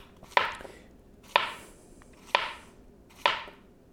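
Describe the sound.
Knife chopping food into pieces about three-quarters of an inch wide for frying: four sharp, evenly spaced cuts, each a crisp bright strike that dies away quickly, with no talk.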